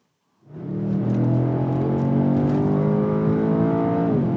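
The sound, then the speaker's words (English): A powerful engine drones inside a Mercedes S-Class convertible with a 612-horsepower AMG engine, driving on the Autobahn. The loud, steady hum starts abruptly and holds a sustained tone with only slight shifts in pitch. “This is the sound of the Autobahn inside Alex Gruller's Mercedes.”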